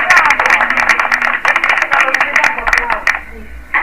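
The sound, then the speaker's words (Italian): Applause from a crowd: rapid, dense clapping that holds fairly steady, with a voice talking over it throughout. “Questo è il nostro applauso al poliziotto che ha ammazzato un paio di persone.”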